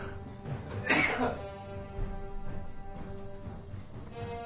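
A cough from one of two sick older men: one short, harsh burst over a steady humming background.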